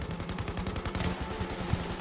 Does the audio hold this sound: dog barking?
no

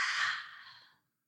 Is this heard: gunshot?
no

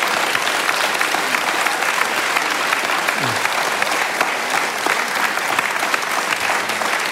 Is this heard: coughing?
no

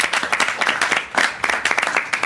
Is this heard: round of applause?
yes

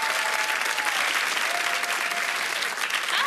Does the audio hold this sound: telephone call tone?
no

